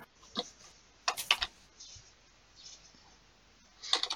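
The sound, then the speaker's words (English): Wooden dice roll during a tabletop game, making faint, light clattering clicks in a few short bursts separated by quiet gaps. “I'm just going to start rolling my wooden dice because these sparkly dice aren't doing well today.”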